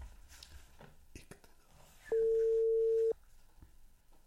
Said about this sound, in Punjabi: Telephone ਕਰਕੇ ਵੇਖ ਲੈਂਦੇ ਹਾਂ ਜੀ ਡਾਇਰੈਕਟ।